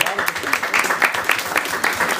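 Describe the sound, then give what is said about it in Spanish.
Audience applause at a Marvel comics talk, a short burst of clapping with voices over it. “¡Un aplauso!”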